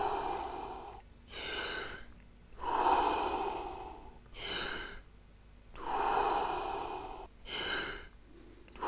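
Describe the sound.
Deep breathing in and out during a guided breathing exercise: a few slow cycles of long, airy inhales and exhales, each swelling and fading, with short pauses between them and no talk.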